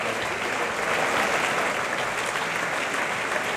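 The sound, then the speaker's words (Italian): Opera audience applause fills the hall at the Maggio Musicale Fiorentino as the cast bows. Dense, steady clapping runs unbroken and evenly loud from start to finish. “qua davanti al pubblico del Maggio Musicale Fiorentino, che piano piano sta iniziando a lasciare la sala, ma gli applausi in ogni caso”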